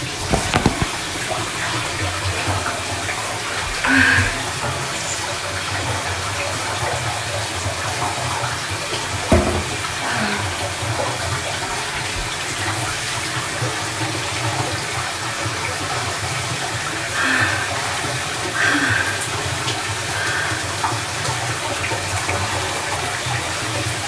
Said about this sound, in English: I'm gonna wash my hair.